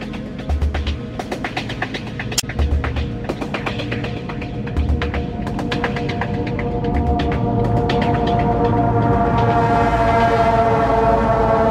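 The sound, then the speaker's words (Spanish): A train at a railway station gives a loud, continuous rumble with many rapid clicks and rattles. A brighter hiss builds steadily toward the end. “Estamos en una estación de tren”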